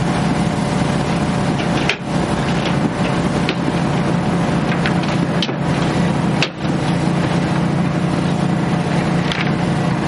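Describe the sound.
Steady rumble and road noise of a moving bus, a dense, even drone that continues throughout with a couple of brief dips and no voices.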